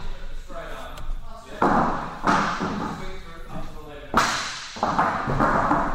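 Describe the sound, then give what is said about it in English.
Students in a safety-methods class drop their sticks onto the floor in front of them: a few hollow, clattering thuds land at uneven intervals while a voice talks over them. “The class is testing safety methods here. Each student is dropping their sticks to the floor in an imaginary spot about a metre in front of them.”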